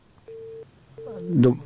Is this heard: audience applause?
no